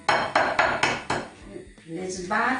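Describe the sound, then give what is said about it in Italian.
Eggs cracked and beaten in a bowl for a ricotta omelette give five sharp, evenly spaced clinks and taps, followed by quieter kitchen handling and a voice. “le apro, uno... Tre uova, le sbatto bene”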